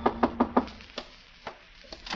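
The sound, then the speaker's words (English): Sharp knocking: four quick, evenly spaced raps, followed by a few slower, more scattered knocks, heard alone. “Well, this was my chance to collar him, only just then a knock came.”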